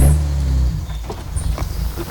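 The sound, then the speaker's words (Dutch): Low engine drone of a car arriving at a house on the Utrechtse Heuvelrug after a half-hour drive, a steady rumble that eases off after the first moments, followed by a few faint scuffs and knocks. “Na een half uur rijden komen we aan bij het huis van Versman en Baslaskaya op de Utrechtse Heuvelrug.”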